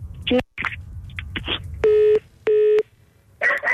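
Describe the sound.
A telephone busy tone after the caller hangs up: two steady, mid-pitched beeps of equal length with a short gap between them, preceded and followed by brief scattered noises.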